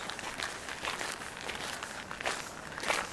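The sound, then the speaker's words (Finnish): Footsteps of people walking outdoors on Seurasaari: faint, steady, repeated scuffing steps that continue evenly throughout. “niin tosiaan täällä Seurasaaressa kävellään”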